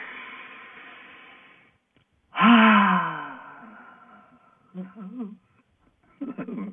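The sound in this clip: A deep breath drawn in as a long, soft, airy hiss, then a pause and a louder voiced sighing exhale that slowly fades, followed by a few brief murmured vocal sounds.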